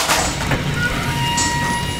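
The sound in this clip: A huge metal tank in a hospital lab being pulled open: a steady, rumbling sliding noise with thin tonal whines above it, lasting about two seconds.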